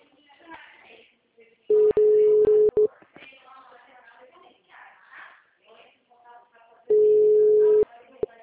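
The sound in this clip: Ringback tone of an unanswered phone call: two long, steady electronic ringing bursts with people talking around and between them.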